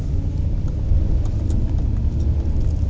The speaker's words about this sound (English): it's Friday. I'm driving to the hardware store of no name.